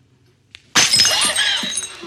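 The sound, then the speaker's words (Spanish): A thrown drinking glass shatters: a faint tick, then a sudden loud crash followed by bright tinkling fragments that fade over about a second. “Le arrojaron un vaso.”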